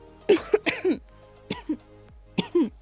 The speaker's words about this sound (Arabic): عفوا بجد سامحوني، جت كحة يعني مخلصة علبتين دواء ومفيش أي نتيجة خالص